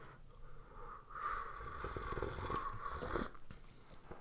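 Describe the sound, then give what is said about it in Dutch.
Faint, airy slurping of a very hot drink, a sustained hissing draw of air and liquid lasting a couple of seconds with a wet, bubbling texture. “daar een trucje voor, hè. Je, drinkt niet gewoon slokken zoals normaal. Ja, nee, oké, okay, gesiept, maar dan nog is dat super warm, hè. heb jij nu echt al iets gedronken? Zie, zie, zo.”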